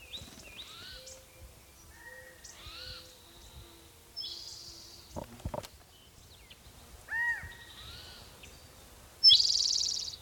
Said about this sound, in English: maybe the calling bird is the mate.